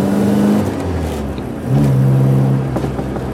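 Small Mini car engine droning and revving while being driven with go-kart-like handling. The steady hum steps down in pitch partway through, then holds at the lower tone.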